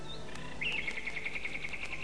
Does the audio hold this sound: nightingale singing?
yes

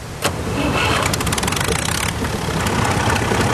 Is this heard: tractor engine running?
yes

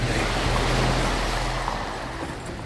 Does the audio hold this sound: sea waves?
yes

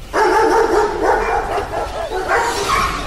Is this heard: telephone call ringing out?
no

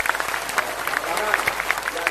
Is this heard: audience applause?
yes

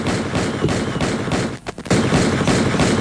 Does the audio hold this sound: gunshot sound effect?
yes

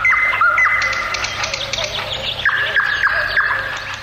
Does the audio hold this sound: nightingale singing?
yes

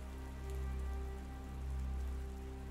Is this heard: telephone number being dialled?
no

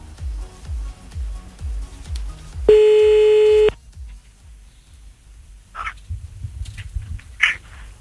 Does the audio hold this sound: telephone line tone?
yes

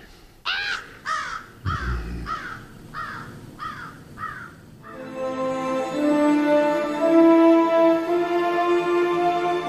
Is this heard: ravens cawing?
yes

